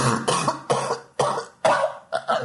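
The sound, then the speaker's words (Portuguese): A person coughs repeatedly, a series of harsh, rough coughs in quick succession with no talk over them. “Tuberculose. Tá no começo do fim que tá tossindo, inclusive.”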